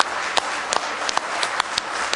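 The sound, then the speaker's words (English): A church audience clapping hands in praise during a worship service, steady rhythmic claps cutting through a loud, dense wash of crowd noise. “Give him a real good hand clap of praise.”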